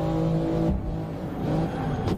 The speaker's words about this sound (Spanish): tú estás girando y ves como el coche sigue recto. Porque vas demasiado rápido y entonces las ruedas se bloquean y por la inercia no gira, o sea, se va, se va recto.